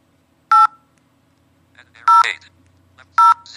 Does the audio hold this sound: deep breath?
no